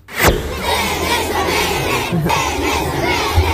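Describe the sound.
A crowd of children shouts together around a reporter in Dolenjska, Slovenia, a brief, loud, continuous burst of young voices that stays steady.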